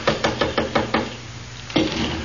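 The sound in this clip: A quick, even series of six sharp knocks on a door, then a short pause and one more knock, with no voices.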